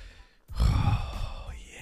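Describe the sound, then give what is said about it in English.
A person takes one loud, breathy breath that sounds like a heavy sigh. It starts suddenly after a near-silent moment and lasts just over a second. “You heard that breath right there? That breath is loading ideas.”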